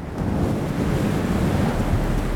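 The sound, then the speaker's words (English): Fierce desert wind howling through the streets of Memphis on a dark night, a steady, dense roar with heavy low rumble and no break across the whole stretch. “It begins on a dark night, when a fierce desert wind howled through the streets of Memphis, rattling doors and shutters.”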